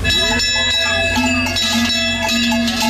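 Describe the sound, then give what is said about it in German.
Cowbells on cattle being driven down from alpine pasture in South Tyrol, many bells clanking and ringing at once in a continuous, overlapping metallic jangle of steady loudness. “Almabtrieb irgendwo.”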